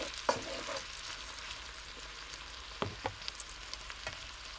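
Onions, mushrooms and cactus fry in a pan with a soft, steady sizzle. Sharp clicks and scrapes of stirring come through at scattered moments, mostly in the second half.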